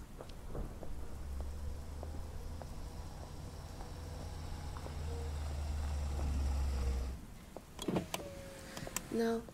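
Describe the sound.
A car pulls up and stops beside someone in the rain on the 4th of July: a steady low engine rumble holds under a constant patter of rain, then cuts off, followed by a few short mechanical knocks and clicks.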